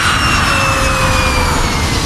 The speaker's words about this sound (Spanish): viaja en avión